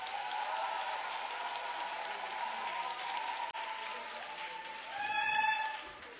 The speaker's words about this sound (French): Ovation. J'ai dit ovationner le vicaire.